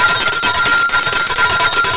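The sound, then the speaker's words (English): A bell rings continuously, a bright, loud metallic ringing with a rapid shimmering repetition that lasts about two seconds, with no voices. “we need to ring the bell again for our beautiful Julian Alfred”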